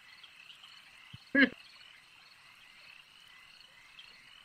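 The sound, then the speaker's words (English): Frogs croaking as ambience for a tabletop role-playing game: one loud, abrupt croak stands out briefly over a faint, steady, high-pitched chirring chorus, with no talk. “Rot remembers the last time we were here, these frogs didn't bother us as long as we didn't provoke them”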